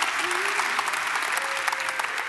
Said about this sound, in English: would you just help me welcome each other by applause as we are one church in a variety of locations